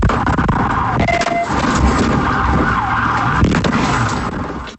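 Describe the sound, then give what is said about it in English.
A siren from a police vehicle pursuit in Fernandina Beach wails steadily over dense, continuous road and engine noise, loud throughout with no voices. “that's sound from a vehicle pursuit in Fernandina Beach”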